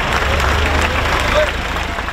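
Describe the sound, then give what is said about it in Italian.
A crowd in Chiva, a town hit by severe flooding, applauds as a column of tractors arrives. Dense, steady clapping runs over a low, continuous rumble. “A Civa, una delle località più colpite dall'alluvione, una colonna di trattori viene accolta tra gli applausi.”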